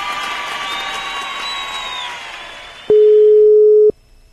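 A telephone call tone sounds while waiting for an answer: a single loud, steady, mid-pitched tone lasting about a second. It follows a stretch of cheering crowd noise that fades out.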